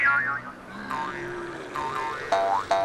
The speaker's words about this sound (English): As you can hear, the kangaroos are bouncing.